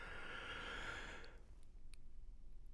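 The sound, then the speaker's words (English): A slow, deep breath out during a guided breathing exercise: one long, steady, airy rush of breath that lasts about a second and a half, then fades into near quiet. “Again, in and out. And finally, one more big breath in”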